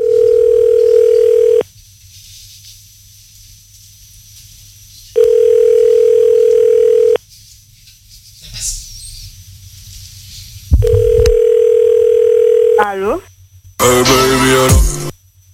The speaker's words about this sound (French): Écoutez un petit peu ce que ça donne lorsque on appelle au hasard des numéros de téléphone que vous nous avez donnés.